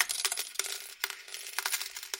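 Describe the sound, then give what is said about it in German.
Several coins drop into a slot machine tray, a quick, uneven run of bright metallic clinks and rattles, fairly faint and heard alone. “Die piepsende Tonfolge eines Glücksspielautomaten. Mehrere Münzen fallen in den Schacht.”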